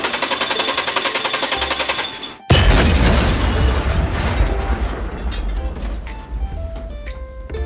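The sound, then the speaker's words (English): A car breaking down and blowing up: a rattling, mechanical engine-like racket runs for about two seconds and cuts out, then a sudden loud explosion bursts in and continues as a heavy rumble with scattered metallic clanks. “Do you need another car 'cause the one you bought blew up?”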